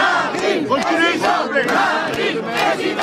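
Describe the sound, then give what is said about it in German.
Cheering and chanting from Marine Le Pen supporters gathered on the market square of La Flèche, a dense, loud mass of raised voices that holds steady throughout, punctuated by a few sharp accents. “Wie auf dem Marktplatz des Städtchens La Flèche versammelten Anhänger von Marine Le Pen bereiten ihr den gewünschten Empfang.”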